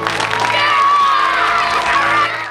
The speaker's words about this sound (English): Her brothers cheer as she crosses the stage to the principal and shakes his hand.